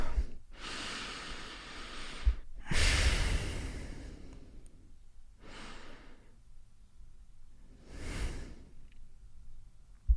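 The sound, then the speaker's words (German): Deep breaths taken during a guided breathing exercise: four slow, drawn-out breath sounds separated by quiet pauses, fairly loud, with no talking. “Schließt nochmal kurz die Augen, wir nehmen nochmal die 1-2 Atemzüge.”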